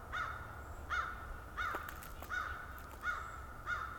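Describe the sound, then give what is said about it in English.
Crows cawing far off: six harsh, rasping calls spaced fairly evenly, each a short caw, faint over a quiet background with no voices. “These crows are way further away and way louder.”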